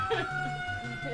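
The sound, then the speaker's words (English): Ambulance and fire truck sirens sound on a city street in Los Angeles as steady wailing tones beneath a voice that talks over them. “And there's an ambulance and a fire truck.”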